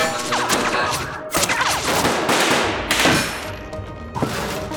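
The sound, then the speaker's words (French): Spaceship weapon fire striking a ship in a video game, heard as a run of dense, loud blasts and crashing impacts that come in several heavy bursts over a few seconds, with no talk. “On se prend des tirs du vaisseau. On a des salles endommagées.”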